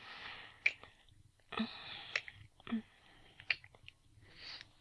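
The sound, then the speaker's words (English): Slow, soft kissing sounds: faint wet smacks and lip noises spaced out unhurriedly, mixed with quiet breathing, with no talk. “Such slow, erotic kisses. So delicious.”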